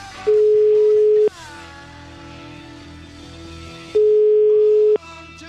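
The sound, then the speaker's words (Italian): Ringback tone of an outgoing telephone call ringing out: two steady, mid-pitched tones, each lasting about a second, separated by a few seconds of low background on the line. “Chi possiamo chiamare? Chi chiamiamo? Forse Parenzo? La signora Ilona? Dici un'altra volta, proviamo, vediamo un po' se risponde.”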